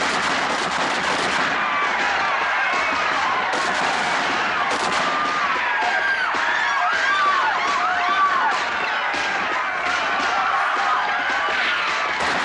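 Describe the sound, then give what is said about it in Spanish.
Soldiers fire rifles into a group of men trapped against a wall, with sharp shots scattered over continuous screaming and wailing from the crowd throughout. “Los soldados disparan a ese grupo.”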